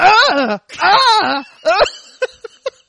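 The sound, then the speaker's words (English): A voice imitates a tennis player's groan with a few drawn-out, wavering moans in a row, followed by short breathy bursts like stifled laughter. “Was that your tennis groan? Well, I don't want to like be really loud. Do it again.”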